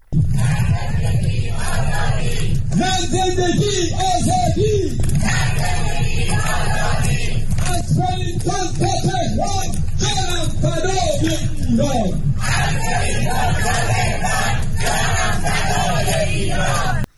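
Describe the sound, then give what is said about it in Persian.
A crowd of Iranians joined hand in hand in a human chain in rainy Wellington, New Zealand, shout slogans in loud, rhythmic chants, with many repeated cries rising and breaking off across the stretch. “تعداد قابل توجهی از ایرانیان ساکن ولینگتون، پایتخت نیوزیلند، با وجود هوای بارانی دست در دست یکدیگر در صفی طولانی فریاد زدند”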